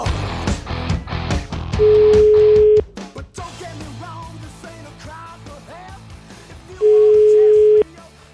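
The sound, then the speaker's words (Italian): Two long, steady single-pitch ringback tones sound while a call is placed. Each lasts about a second, with roughly five seconds between them, and people talk before and between the tones. “Giulietto Chiesa, chiamiamo.”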